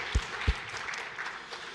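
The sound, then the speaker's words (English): A church audience applauds to welcome a family during a Sunday morning service, faint scattered clapping after two low thumps at the start. “So let's put our hands together and welcome them.”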